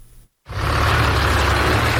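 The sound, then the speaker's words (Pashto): Trucks carrying Afghan refugees arrive at the Torkham border gate with a heavy, continuous engine roar and rumble. It starts after a brief silent gap and stays loud and steady to the end. “له افغان کډوالو بار دا ګاډي تورخم دروازې ته ورسېدل.”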